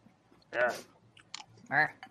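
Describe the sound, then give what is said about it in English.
Quiet crunching as dry cereal is chewed, a few soft bites spread across the moment, mixed with short voiced mouth murmurs. “You're eating the cereal dry. I guess that's how they would have to eat it on the ship.”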